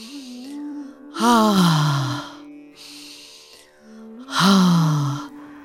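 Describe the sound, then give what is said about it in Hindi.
Deep breaths taken during a guided yoga relaxation, two loud breathy rushes each carrying a voiced, falling sigh-like tone, over a soft sustained low hum. “फिर एक सांस लीजिए”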